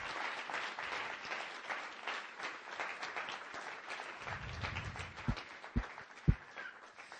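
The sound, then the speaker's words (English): A standing audience applauds to welcome a guest reverend in South African style. The clapping is faint and continuous, with a few sharp low thumps near the end. “Let's stand and give a hand of welcome, a South African welcome.”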